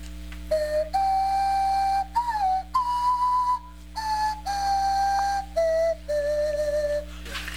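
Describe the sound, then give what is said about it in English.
Breathy whistled notes made by blowing across a pop bottle while wiggling the tongue, a series of sustained tones stepping up and down in pitch like a simple tune, heard alone over a steady low hum. “You're going to take a deep breath and blow across the pop bottle while this is in front of your mouth and wiggle your tongue, and that's all you do. Okay, that's a noise.”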